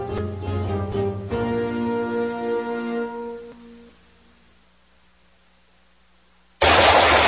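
Gunfire hits as one sudden loud blast near the end, after a droning tone fades into near silence.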